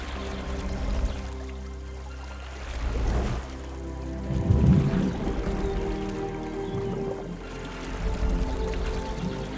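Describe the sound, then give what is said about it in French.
Water sloshes and splashes as oars row a small boat, rising in a few soft surges over a steady low background. “Là, regardez, une barque. Quelle chance. Prenons-la. Je prends les rames.”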